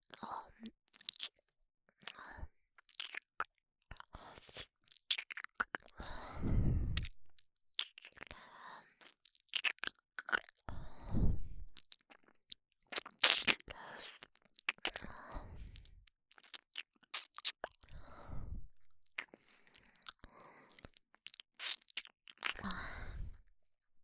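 Wet mouth sounds of ear licking: soft, irregular smacks, slurps and clicks that continue closely and steadily for the whole stretch, with brief quiet gaps between them.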